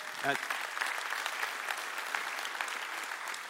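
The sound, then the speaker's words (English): Congregation clapping at a church service: steady, dense applause that fills the whole clip, with a brief voice-like tone near the start. “I know why some of you are clapping. You're clapping because how did she put up with him that long?”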